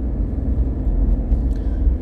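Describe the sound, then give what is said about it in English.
A car driving to work, heard from inside the cabin, gives a steady low rumble of engine and road noise throughout, with no voices. “Now, yes, if you're wondering, I am driving. I am driving to work.”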